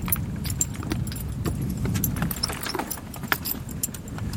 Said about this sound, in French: Fais avancer le cheval, s'il te plaît.